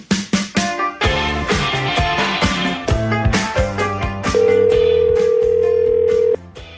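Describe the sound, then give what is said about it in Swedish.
A telephone call being placed: a quick run of bright tonal beeps and notes, followed by a steady ringing tone held for about two seconds that then cuts off. “Men först så ska vi ta och ringa upp vår kollega Oskar Månsson”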